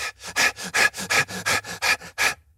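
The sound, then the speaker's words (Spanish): Rapid panicked breathing, demonstrated to show how people hyperventilate when short of air: a fast, even run of about a dozen short, sharp, breathy huffs, loud and hissy, with no talking. “Inmediatamente que empezamos a sentir falta de aire, empezamos a respirar así.”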